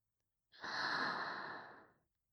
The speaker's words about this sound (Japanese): 体の力を抜いてリラックスするの。ママたちに身を任せて、深呼吸してちょうだい。